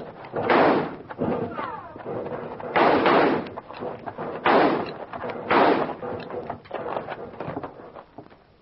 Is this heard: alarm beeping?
no

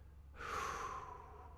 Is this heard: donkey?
no

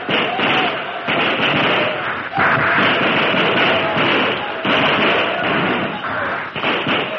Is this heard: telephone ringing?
no

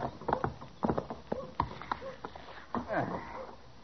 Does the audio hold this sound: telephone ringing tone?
no

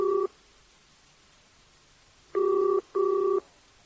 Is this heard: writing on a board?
no

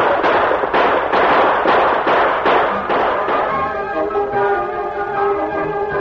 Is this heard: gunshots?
yes

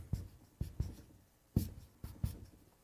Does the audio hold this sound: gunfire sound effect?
no

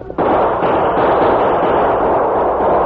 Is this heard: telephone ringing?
no

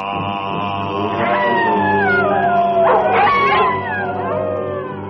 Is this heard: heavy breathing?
no

